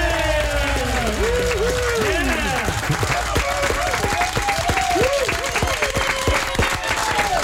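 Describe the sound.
A studio audience applauds to welcome a guest, with steady clapping and cheering, whooping voices over it throughout.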